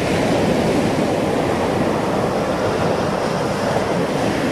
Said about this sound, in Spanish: Escuchá, pero este es el sonido de la playa.